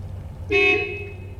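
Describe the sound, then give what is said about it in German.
A car horn gives one short, moderately loud toot on a street in Cologne, with a steady low background hum. “Ein blödsinniges Auto hupt.”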